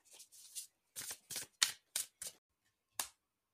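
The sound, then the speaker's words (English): Faint papery swishes and snaps as a tarot card is drawn from a deck. A series of brief, soft handling sounds comes at irregular intervals, with no talk. “I'm just gonna quickly get your second card before we dive in.”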